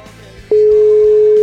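An outgoing telephone call produces a ringback tone. After half a second of low background, a steady single-pitched tone starts abruptly and holds loud and unbroken to the end.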